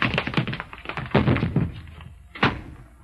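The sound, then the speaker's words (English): Someone trips over their own feet and falls: a run of dull thumps and scuffling knocks, then a quieter pause and one last sharp thud near the end. “Tripped over my own feet. I could have had her, but I tripped over my own feet.”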